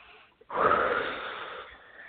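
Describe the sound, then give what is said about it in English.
A deep breath in and out: one long, airy breathing whoosh that starts suddenly after a brief quiet moment and slowly fades while still audible. “So go ahead and take a deep breath and exhale.”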